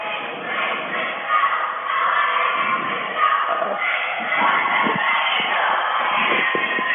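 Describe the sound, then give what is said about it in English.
Pre-game crowd of Port Aldsworth Lynx fans cheering and shouting, a loud, steady roar of many voices that holds throughout, with a few scattered thuds under it. “And if pre-game excitement is any judge for how this is going to go, the Port Aldsworth Lynx are definitely on the road to success so far. Very, very amped up here”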